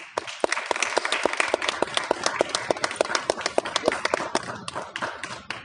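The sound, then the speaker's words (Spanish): Audience applause at a festival event rises as dense, continuous clapping that stays at an even, lively level throughout, with many sharp overlapping claps and no voices. “Y pues un aplauso, por favor.”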